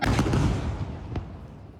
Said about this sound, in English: This is the moment Israeli fighter jets struck a residential building near Al-Aqsa Hospital in central Gaza. The strike has left widespread devastation in the area.